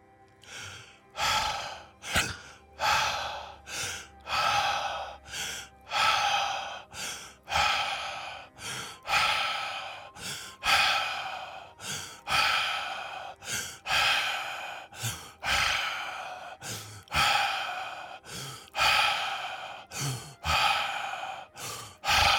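Guided breathing exercise: many audible breaths, airy puffs of inhaling and exhaling repeating in a steady rhythm for the whole stretch, with no talk.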